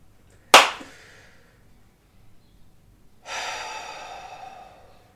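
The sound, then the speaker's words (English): Breathing: one short, sharp snorting intake of breath, then after a quiet pause a long, airy, hissing exhale that slowly fades. “I hear a lot of breathing out there, but not a lot of words.”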